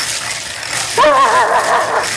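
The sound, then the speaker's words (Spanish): A small dog yaps and whines during a bingo game, giving one short, high, wavering cry under a second long over a steady noisy background. “Está el perrito.”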